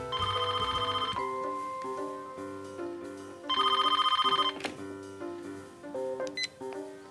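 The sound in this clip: A telephone bell rings in two bursts of rapid, bright trilling, each about a second long and separated by a pause of a few seconds, over a steady tonal background.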